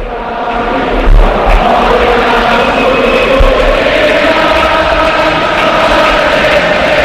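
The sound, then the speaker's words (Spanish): Stadium crowd at Anoeta singing the Real Sociedad football club anthem, a dense, continuous roar of massed voices with a sustained sung tone that holds steady and loud throughout. “Mikel Oyarzabal, mientras suena así Anoeta. Están cantando el himno de la Real.”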